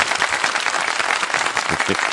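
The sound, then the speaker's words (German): A sound effect of crowd applause: dense, steady clapping with an even texture that lasts the whole clip at a fairly loud level, with no clear voices. “Spiel mal Applaus ein für uns beide.”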